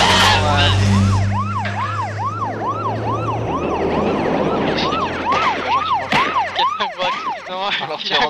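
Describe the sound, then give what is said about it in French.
Police siren wailing in fast, repeated rising-and-falling yelp cycles, loud and continuous, with a low rumble beneath the first few seconds. “Mais qu'est-ce que j'entends? La police.”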